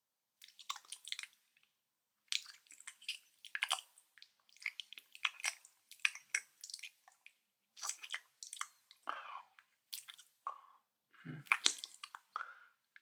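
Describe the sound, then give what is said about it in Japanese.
Wet licking and smacking mouth sounds come in many short, irregular bursts with brief pauses between them. Soft squelches and faint crunch-like clicks mix in. Nobody speaks. “舐めにくいから動かないで。”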